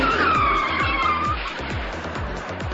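A car braking hard makes a high tire squeal that holds and then fades out about halfway through, over a loud, steady rumble with regular low thumps.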